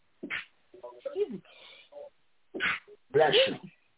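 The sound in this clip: A sneeze bursts out among short fragments of voices, a sharp, breathy, noisy blast that stands out as the loudest moment against the quieter vocal sounds around it.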